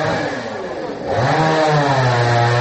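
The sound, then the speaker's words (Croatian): A chainsaw cuts a fallen log blocking the road to a house, its engine droning loud and continuous, then revving higher partway through and holding the raised pitch. “Nekoliko meštana testerom seče balvan koji je preprečio put do jedne kuće.”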